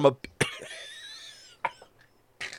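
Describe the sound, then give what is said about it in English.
A few short, harsh cough bursts, faint and irregular, with a strained, wheezy vocal sound drawn out between them. “The wildest cough I've ever heard in my life. Yeah, because it wasn't really a cough. There's no more air in my lungs.”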